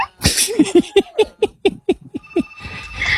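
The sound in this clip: A bird calls in a quick run of short, repeated chirping notes at an even, brisk rhythm, clear and fairly loud, then fades into a softer hiss.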